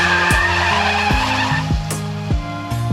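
A car accelerates away hard with its tires squealing, a loud continuous hiss of rubber over the engine note. The engine pitch climbs and drops back again and again as it runs through several gear changes.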